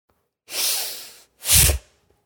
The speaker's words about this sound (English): So forceful breath in, palms go up, palms open, forceful breath out, hands fall to the starting position.